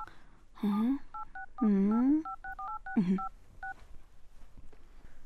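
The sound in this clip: Touch-tone beeps of a telephone number being dialed: a quick run of short paired-tone beeps, interrupted by a few bursts of voice sounds, with quiet after.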